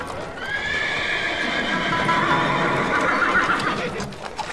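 A horse pulling a cart neighs as the cart comes to a halt, a long, loud, wavering whinny with hoof clip-clops beneath it, fading near the end.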